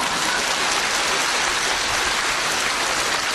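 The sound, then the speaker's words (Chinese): Dense, steady audience applause follows a joke and holds at an even loudness throughout, with no voices over it. “鼓掌。”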